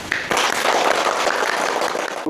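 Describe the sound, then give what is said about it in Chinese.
Applause from a gathered duty team welcoming two new colleagues: dense, steady clapping that starts abruptly, holds at an even level and stops sharply. “下面让我们以热烈的掌声欢迎二位同志。”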